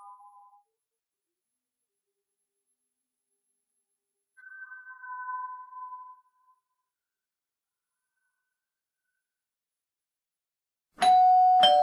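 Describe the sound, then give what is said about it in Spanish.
A doorbell chimes once in two tones, a higher note followed by a lower one, clear against silence. A faint short tone comes before it, and a loud tonal burst cuts in at the end. “De nuevo sonó el timbre.”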